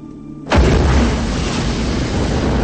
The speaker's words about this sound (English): A fireball explodes from the shield.